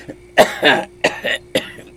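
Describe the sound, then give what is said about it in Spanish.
An elderly grandmother coughs in a rapid series of harsh, loud bursts that come roughly in pairs, with brief pauses between them. “abuela, ¿qué tos?”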